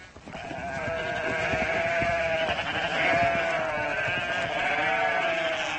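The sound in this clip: Sheep and lambs bleat at a farm where lambs are being marked. Wavering high and lower calls overlap in a loud, continuous chorus that runs throughout.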